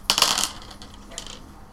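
Pennies clink and rattle inside a jar: a bright, rapid cluster of metallic jingles at the start, then a softer, shorter rattle about a second later, with no voices.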